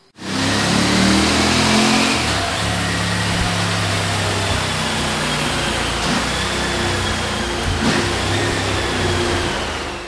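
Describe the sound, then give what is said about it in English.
A V4 sport touring motorcycle, the MST version, revs hard on a dyno. Its engine roars loudly and continuously at high revs, easing slightly after the first couple of seconds, then drops away at the very end. “What I would like to do is play the dyno piece. So let's plug that in right quick so they can get a feel for the sound of the bike.”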